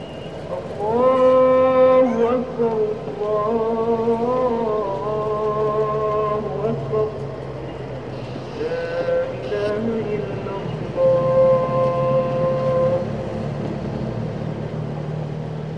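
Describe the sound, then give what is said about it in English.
Evening call to prayer from a mosque in Kabul: a chanting voice sings long, sustained, wavering melodic phrases separated by brief pauses, over a low steady rumble. “listen to the last prayer of the day coming from the mosque.”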